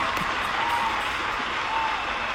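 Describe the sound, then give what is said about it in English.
A round of applause that sounds like a crowd, played as a continuous, even wash of clapping noise without distinct individual claps, at a fairly loud and unchanging level for a couple of seconds. “Let's give ourselves a round of applause for this episode.”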